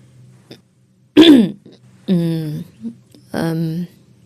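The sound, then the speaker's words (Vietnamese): A young woman clears her throat to test her voice. Three distinct gravelly, voiced throat-clearing bursts, the first sharp and the later two longer and steadier, come with a few small throaty sounds between them. “đang hắng vài tiếng lại thử giọng”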